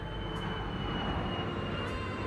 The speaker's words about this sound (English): A plane flew overhead, taking off from the nearby JFK airport.